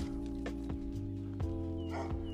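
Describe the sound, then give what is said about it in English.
A dog barks a few times, the barks faint and short, spaced irregularly over a steady low droning hum. “Sorry about the dog barking.”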